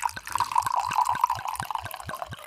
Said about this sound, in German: gib mir eine Sekunde Zeit und schenk mir noch mal einen Schluck Wein nach